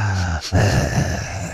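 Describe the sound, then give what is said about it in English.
A voice imitates the heavy breathing of a creepy phone caller: a short voiced sound, a brief pause, then a long, raspy, breathy exhale held steadily to the end. “when you said heavy breathing, I'm thinking about, you know, the creepy callers that you get sometimes, you know, the ones that just sit there and go.”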